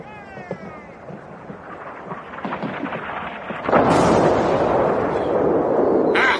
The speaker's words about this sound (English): I reckon that's pretty poor shooting. No, on the contrary. They know their business. They're bracketing.